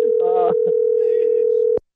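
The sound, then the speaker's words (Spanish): A steady telephone tone sounds after a call is disconnected. A single continuous, mid-pitched drone holds for nearly two seconds and then cuts off abruptly, with brief voices over its start. “Oh, se desconectó la llamada”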